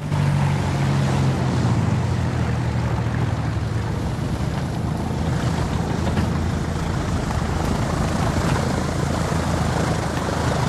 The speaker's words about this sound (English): The plane banks to the left, then touches down on a runway, which is a narrow, dusty track cleared between fields of thickly growing crops.